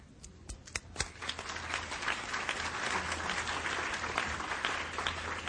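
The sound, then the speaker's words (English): Audience applause at a forum approving the election of vice chairpersons and a rapporteur by acclamation: a few separate claps grow into steady, dense clapping that holds to the end. “May I take it that the members of the forum wish to elect the nominees as the vice chairpersons and rapporteur by acclamation?”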